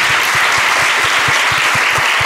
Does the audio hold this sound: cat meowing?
no